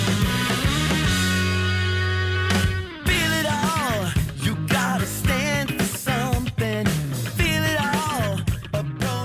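A full band plays rock music. It opens on a long sustained chord, drops out for a moment, then kicks into a driving groove of drums and bass with bending, sliding electric guitar lines on top.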